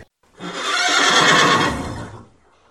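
A pony neighs once in a single long, loud whinny of about two seconds that swells and then fades, with no other sounds around it.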